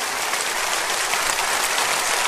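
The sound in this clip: Applause from a church audience giving thanks, a steady dense wash of many hands clapping at even loudness throughout, with no voices.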